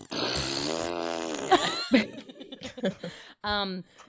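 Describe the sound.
A voice imitates a fart with the mouth, making a few buzzy, wet-sounding bursts. The first is long and drawn out, followed by shorter sputters and a final brief blast.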